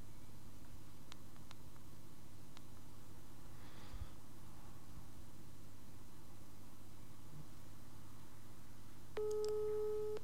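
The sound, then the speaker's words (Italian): A telephone ringback tone as a call is placed and bridged through a mobile phone: a long stretch of faint hiss, then a steady tone that starts only near the end. “Sta chiamando.”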